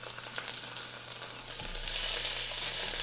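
Meat shanks brown in a hot pan with a steady, faint sizzling hiss that holds evenly throughout, with no voices.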